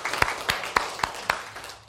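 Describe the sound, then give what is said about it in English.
A church audience claps for a couple's 52nd wedding anniversary, heard as a few sharp claps at an even, brisk beat, each landing on its own with short gaps between. “Let's just clap for that, because that's amazing.”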